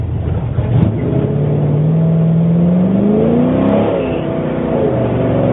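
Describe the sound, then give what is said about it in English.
The engine of a Chevrolet Caravelle drag car revs loud and steady as its tires are warmed on a drag strip. The engine's pitch climbs for a few seconds, then drops back to a rough idle. “Now we're getting the tires warm.”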